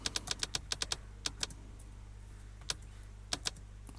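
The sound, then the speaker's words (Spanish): Someone types a written message on a computer keyboard: quick, light keystrokes in short clusters, then sparser single taps with pauses, all faint and with no talk. “Sergio Bueno, voy a enviar un mensaje por escrito. Sabemos que el mensaje por escrito lo voy a escribir.”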